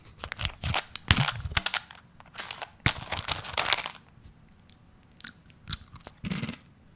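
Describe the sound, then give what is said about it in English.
Crunching and chewing on Nutella sticks snacks: many crisp, fairly faint bites and crunches in irregular bursts, with short pauses between them. “What was that noise? It's Nutella sticks.”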